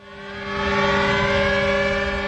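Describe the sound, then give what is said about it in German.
Sirens sound over Westerplatte in Gdańsk at a memorial ceremony marking the German invasion of Poland on 1 September 1939. A sustained, harmonically rich wailing tone swells in loudness over the first second, then holds steady and loud. “Mit Sirenen über der Westerplatte erinnert Polen jedes Jahr an den Überfall Deutschlands am 1. September 1939”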